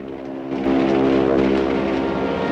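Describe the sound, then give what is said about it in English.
A propeller aeroplane with its tail on fire passes overhead, its engine a droning, harmonic hum that swells noticeably louder after the first half second and then holds steady and strong. “He looks up to see the plane flying past overhead, its tail on fire.”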